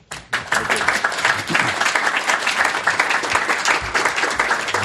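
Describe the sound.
An audience at a Commonwealth Club of California event applauds to thank a speaker after his talk: loud, dense clapping starts abruptly and then holds steady without a break.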